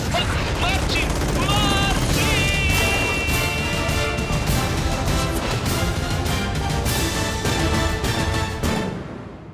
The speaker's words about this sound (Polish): Przecież strzela! Dobra, masz teraz strzelaj. Dobra, czekaj, czekaj, przeładuj.